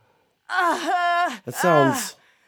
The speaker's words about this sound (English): But then, listen to the female groan, okay? Here, listen to this shit.